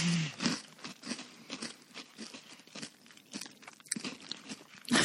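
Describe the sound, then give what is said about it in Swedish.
People chew crunchy food, with many faint, irregular crunches and bites coming close together in an otherwise quiet setting. “Så vi bara sitter och trycker in i käften just nu.”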